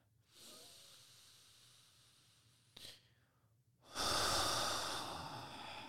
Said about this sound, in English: just this breath